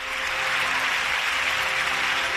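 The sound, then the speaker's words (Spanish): Crowd applause and cheers for the Virgin at midday Mass in the Basilica de la Macarena, Seville, a dense, continuous roar of clapping with faint voices mixed in, steady in level throughout. “Son los aplausos y vivas a la Virgen de las personas que este mediodía se daban cita en la Basílica de la Macarena”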